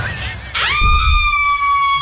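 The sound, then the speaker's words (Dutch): A heavy object slams down onto a jeep in a dramatized night scene, a sudden crash with shattering, followed by a loud, sustained high ringing tone that settles and holds steady to the end. “Iets zwaars valt op de auto.”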